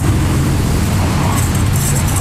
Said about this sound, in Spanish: El ruido citadino no opaca el de su carrito.